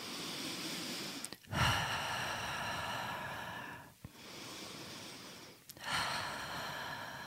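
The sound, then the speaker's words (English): Slow, deep breathing during a breathing exercise: a few long, airy inhales and exhales, each a steady, soft rush of air separated by brief pauses, with no talk. “I'd like you to put one hand on your chest and I'd like you to put one hand on your belly button, okay? And what I'd like you to do is to take 5 to 10 really deep breaths”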